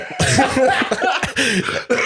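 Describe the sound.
A person breaks into a choking coughing fit, a run of loud, harsh, raspy coughs in quick succession with strained voiced sounds between them, filling the whole clip with no clear speech.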